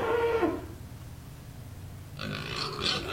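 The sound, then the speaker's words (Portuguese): Farm animals waking at dawn: a burst of animal calls at the start, a quieter stretch, then a denser, louder round of calls toward the end. “Opa lá, a bicharada se acordou. É, já está começando a clarear o dia.”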